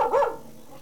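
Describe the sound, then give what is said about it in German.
A single short bark from a farm dog, mid-pitched and fairly loud, ending abruptly. “Sultan, unser Hofhund, ist der Bär.”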